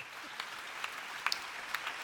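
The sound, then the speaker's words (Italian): Audience applause for a woman, a fairly faint, even wash of many hands clapping with a few sharper individual claps standing out, sustained throughout without voices. “un applauso alla signora”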